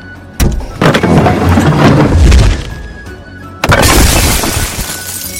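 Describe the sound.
A trebuchet fires and its parcel delivery crashes down: a sharp heavy bang and a second hit lead into a long rumbling roar. A sudden loud crash then bursts out and gives way to crackling debris noise.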